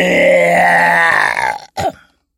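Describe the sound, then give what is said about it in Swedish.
A person imitating a dinosaur roar with a long, deep, raspy groan from the throat, which breaks off and is followed by one short, gruff second burst. “Han tog i ett djupt andetag, öppnade munnen och röt.”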